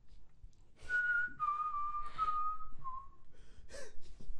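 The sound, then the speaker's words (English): A person whistles a short wavering tune of a few held notes that drift slightly downward, faint and breathy, broken by puffs of breath between the notes. “It's very difficult to whistle sensibly when you're being tickled.”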